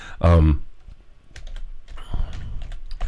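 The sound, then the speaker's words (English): Fingers type on a computer keyboard: after a brief spoken voice, a quick, irregular run of light plastic key clicks continues to the end. “I'm going to type this in.”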